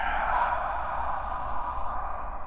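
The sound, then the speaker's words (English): A long, forceful exhale pushed out during a breathing exercise, heard as a steady, breathy hiss that lasts over two seconds, fairly loud and with no talking. “Lengthen your breath here. Full column of air, press it out.”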